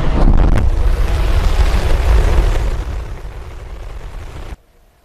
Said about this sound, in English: Now, SpaceX is celebrating a successful trip to orbit with its Starship rocket. 3, 2, 1.